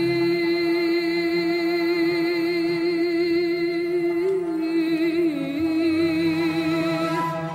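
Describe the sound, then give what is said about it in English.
Maluf, Andalusian court music performed in Tunisia, plays loud and continuously: a strong sustained low note holds steady beneath wavering, ornamented melodic lines. “That sound you're hearing is Maluf, court music from Al-Andalus, the medieval Muslim kingdom in Spain”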